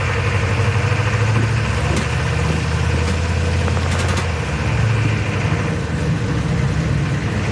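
Vehicle engine idling and rumbling steadily while driving across a road near ISIS positions, a continuous low drone with a few faint clicks and ticks over it.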